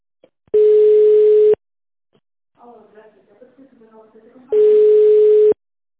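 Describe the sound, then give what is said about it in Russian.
Telephone line tone while a call is connected: two steady, mid-pitched tone bursts of about one second each, separated by a pause in which a faint voice is heard. “зовут Денис Николаевич, сейчас соединяю вас.”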